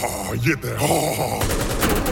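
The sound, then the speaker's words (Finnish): Rapid gunfire as a magazine is emptied, a dense crackling run of shots that blurs into a near-continuous roar, with a short vocal groan early on. “Jarmo ampuu Jeten lippaan tyhjäksi”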